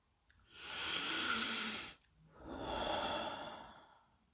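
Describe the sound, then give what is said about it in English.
Deep breath taken to calm down: a long, loud inhale of about one and a half seconds, a brief pause, then a slightly softer, slow exhale of similar length. “Had to take a deep breath there just to kind of calm down.”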